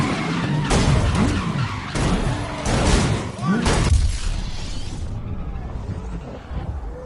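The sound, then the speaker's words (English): Tires skid and squeal as a car slides wide around a corner in the racing game Grid on PS4. Several whining squeal bursts ride over a loud engine roar, which fades near the end, while a person talks over it. “I got a little bit wide around the corner, but it's like, meh, it's better than it was. So that is Grid for the PS4,”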